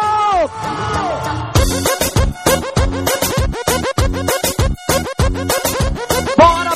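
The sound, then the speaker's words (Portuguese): A crowd shouts loudly at a live pop show in Bragança, the voices coming in many rhythmic, punchy bursts that repeat steadily throughout. “E quem é do Super Pop grita bem alto.”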